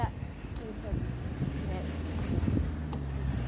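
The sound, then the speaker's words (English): Ferry ride ambience: steady wind buffeting and a low rumble of engine and water run throughout, with people talking over it. “Lovely little ferry ride. It's a lovely little ferry ride,”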